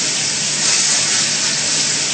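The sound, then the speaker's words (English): Plantain frying in hot oil gives off a steady, continuous sizzling hiss that stays even in loudness from start to finish, with no pauses or voices. “Now I put the banana in, or plantain, to fry.”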